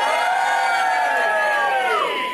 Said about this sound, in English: I'm here at the Cavendish Arms in Stockwell, in London. Can I have a cheer from the audience?